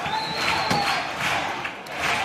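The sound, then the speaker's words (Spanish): A theatre crowd roars as a carnival group enters, and the group shouts a sustained welcome chant over the steady crowd noise. “Que viene la cantera. Que viene la cantera. Es el grito de bienvenida.”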